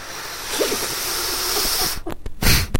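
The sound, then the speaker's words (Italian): A voice imitates breathing: a long, hissing, drawn-out inhale followed by a very short, sharp exhale, both made breathily without words. “inspiro a lungo ed espiro in maniera molto corta”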